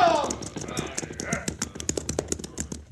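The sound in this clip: Horse hooves clip-clop as a western radio drama sound effect, a steady, fairly faint run of many hoofbeats in an even rhythm lasting the whole clip.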